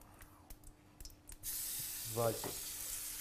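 Fish frying in sesame oil with a little potato: a few small clicks and knocks give way to a sudden, sustained bright sizzle that crackles on steadily.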